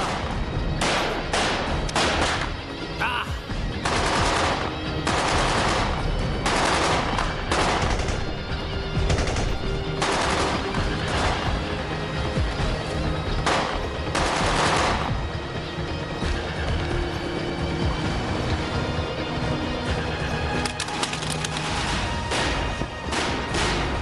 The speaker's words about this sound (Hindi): थोड़ी थोड़ा रुक रुक के फायरिंग करते।